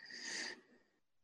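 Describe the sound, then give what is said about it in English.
A sharp intake of breath during a group discussion about consultants: one quick, breathy inhale lasting about half a second, faint and alone, trailing off into quiet. “I heard an intake of breath. Was someone about to talk?”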